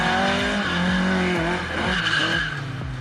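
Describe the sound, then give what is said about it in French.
Tires squeal as a rear-wheel-drive Opel Manta oversteers, a loud, sustained screech riding over a steady engine drone for the whole clip. “Ce qui est très sympa avec cette Opel Manta, c'est la maniabilité, son côté très survireur. C'est normal, on a quand même toute la puissance au roue arrière.”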